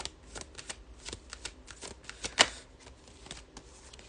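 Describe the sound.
Tarot cards being shuffled, a run of many quick papery riffles and ticks with one sharper snap near the middle, fairly quiet and heard alone.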